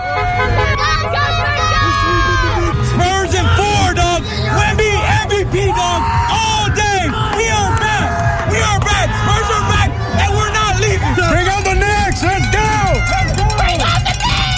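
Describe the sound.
Spurs fans cheer on reaching the finals: a dense, loud roar of many shouting and whooping voices that stays steady throughout.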